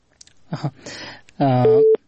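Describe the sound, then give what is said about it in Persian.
Telephone busy tone after a dropped phone call: a few brief words of speech, then one loud, steady, sustained beep that cuts off sharply. “تماس ای دوست ما قطع شد که از ولایت کندز تماس گرفته بودن.”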